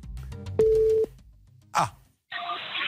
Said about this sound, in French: Donc, on appelle le sous-traitant. Hein. Très bien. Alors le sous-traitant qui se trouve dans le 72. La Sarthe. C'est parti. Voyons s'il répond